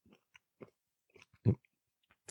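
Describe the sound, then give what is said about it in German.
Crunching and chewing of nuts being eaten: several faint, crisp crunches spaced irregularly, with one louder bite standing out in the middle, and no talking. “Im Podcast essen, ich weiß gar nicht, ob man das darf. Gehört das zur Podcast-Etikette, dass man da futtert beim Reden?”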